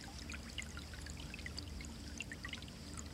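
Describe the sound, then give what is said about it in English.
Moving water flows gently: a faint, continuous trickling stream with scattered small droplet splashes and no voices. “rest on the moving water. And if you're not particularly visual, sense the water”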